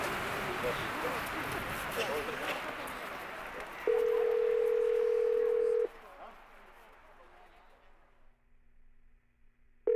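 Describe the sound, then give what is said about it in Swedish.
A telephone ringback tone plays while a consulate is being called: one steady, hum-like tone about two seconds long over fading background noise, then a second tone starts at the very end. “Jag försöker få tag på konsulatet för att fråga vad de tycker om demonstranterna på Ukrainaplatsen. Först svarar de inte.”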